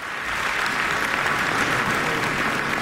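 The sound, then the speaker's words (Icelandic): A concert audience applauds a pianist enthusiastically at the end of a recital in the Philharmonie concert hall in Luxembourg, producing a dense, steady wash of clapping that stays loud and even throughout. “Georgi var ákaft fagnað í lok tónleikana”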